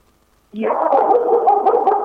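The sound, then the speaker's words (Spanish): A dog angrily vocalizes, a loud continuous harsh sound with a gruff growling edge that starts abruptly after half a second of near silence and holds steady to the end. “Se enojó el perro.”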